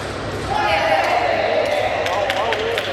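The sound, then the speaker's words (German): Sepak takraw players juggle a small plastic ball, producing a few sharp, hollow taps as it is kicked, spaced irregularly and clustering toward the end. A voice talks over the sound throughout. “Jetzt jonglieren sie mit einem kleinen Ball aus Plastik herum.”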